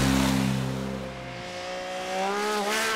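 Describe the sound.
Cars drive loudly through a village, speeding into a bend and overtaking. The engine roar is loud at first, drops in pitch and fades slightly, then climbs again as the engines rev up, with no voices.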